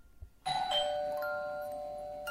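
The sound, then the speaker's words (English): A doorbell rings once in a home late at night. After a quiet moment a bright chime strikes, then leaves clear ringing tones that slowly fade over about two seconds. “I stood back, and in the living room, all of a sudden, the doorbell rang.”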